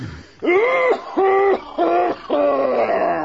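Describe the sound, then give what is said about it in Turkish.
A gentleman's harsh coughing fit, performed in a radio play to resemble whooping cough, comes as four drawn-out, tonal, groaning bursts with short gaps between them, the last the longest. “Anam yanında bizim beyefendinin öksürüğü bu.”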